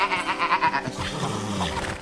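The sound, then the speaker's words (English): A goat bleats in a quavering, rapidly pulsing cry for about the first second, followed by lower, steadier sounds. “And that old goat there is an old goat.”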